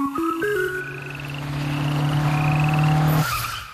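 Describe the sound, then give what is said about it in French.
Michelin CrossClimate tyres braking hard on a wet road: a loud, sustained tyre screech with shrill, stepped tones that holds for about three seconds before cutting off abruptly. “Cette petite grenouille a eu beaucoup de chance de croiser la route d'un pneu Michelin Cross Climate. Michelin Cross Climate, sur sol mouillé, il freine aussi sec.”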